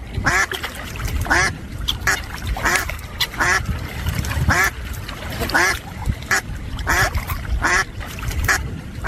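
Ducks quack loudly and continuously, many quacks in quick, uneven bursts overlapping one another, with brief pauses between clusters.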